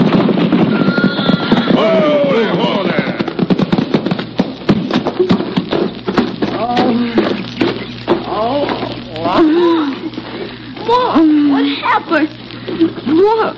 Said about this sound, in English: We raked those poor horses' flanks, and their hooves pounded on the sun-baked road like war-maddened Indians on their drums.